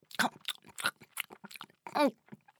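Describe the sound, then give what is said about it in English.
Chewing and chomping on candy by a cartoon chameleon: a quick run of crunchy bites in uneven bursts, fairly faint, with brief pauses between them. “Magic Chameleon opened his mouth and took a bite. Chomp, chomp, chomp! He ate them all.”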